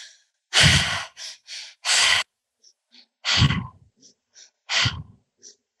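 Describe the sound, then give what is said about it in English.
Energizing triactive breathwork, air drawn in through the belly and up into the chest, then pushed out through the mouth. Loud, forceful breaths come in repeated cycles of sharp rushes with short silent gaps between them. “it's called the triactive breath. So it's in through the belly, up into the chest, and out through the mouth. So it sounds like this.”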